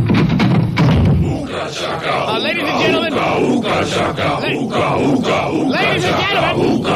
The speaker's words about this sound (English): They're getting restless in the line in the street.